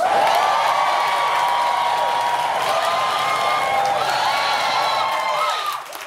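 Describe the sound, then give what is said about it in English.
A canned crowd cheering sound effect stands in for a missing live audience on a comedy show. It is loud, continuous applause and cheering with whoops riding on top, then dips briefly just before the end. “Full disclosure, none of those people are here. But when you don't have a real audience, you have to fake one, just like Trump's inauguration.”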